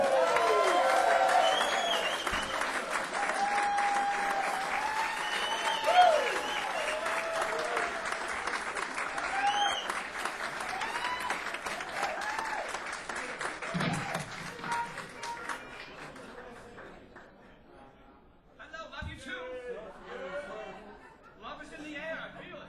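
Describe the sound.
Audience applause welcoming a performer on stage: sustained clapping mixed with crowd chatter that gradually thins out and fades, leaving scattered claps and taps near the end.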